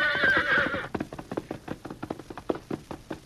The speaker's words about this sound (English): Eagerly, the thoroughbred trotted forward, covering the wide expanse of rangeland with long,